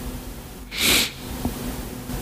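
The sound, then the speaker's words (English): A single brief sniffle, a breathy rush of air drawn sharply through the nose, rises out of quiet background and fades within half a second. No one talks. “That little sniffle was very, very on brand.”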